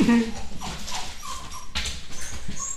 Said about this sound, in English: we got a fucking dog crying.